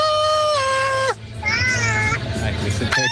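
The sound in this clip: Whimpering from a miniature pinscher dog: high, drawn-out whining tones that sag in pitch, repeated a few times, with people talking over and between them.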